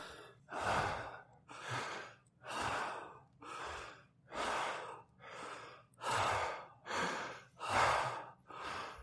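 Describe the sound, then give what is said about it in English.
A group of people takes a series of deep, slow breaths, a steady rhythmic run of breathy inhales and exhales repeated many times, faint and with no talk. “Guys, 10 deep breaths, just like Donna said”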